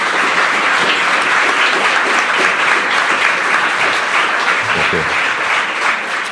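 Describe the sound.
Audience applause welcomes a speaker at a Human Rights Watch event, with loud, dense, steady clapping that fills the whole stretch without a break.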